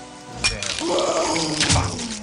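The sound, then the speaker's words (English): Holy water is thrown in a video game, with a brief thud followed by a watery splash and fizzing wash that lasts about two seconds. No voices are heard. “I'm throwing holy water at it.”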